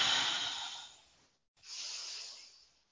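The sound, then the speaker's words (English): A deep cleansing breath taken during a guided prayer, heard as two long, airy, hissing breath phases separated by a brief pause, the first louder and fading slowly, the second softer and steady, with no talk. “welcoming in a nice cleansing breath.”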